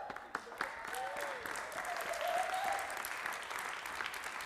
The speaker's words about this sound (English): that's all right, I guess I better clap too.